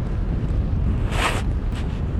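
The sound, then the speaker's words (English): An outdoor gust of wind blows just before a kite is rigged, a constant low buffeting rumble with a brief airy swell in the middle. “Right now there's a nice gust that I can feel. It's saying, okay, time to get going and rig up the kite.”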